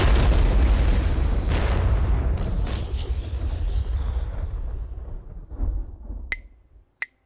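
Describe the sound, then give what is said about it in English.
A mine in a minefield explodes in a deep, loud boom whose rumble decays slowly over several seconds. Two sharp clicks follow near the end. “you're standing right in the middle of a minefield. Get ready to explode.”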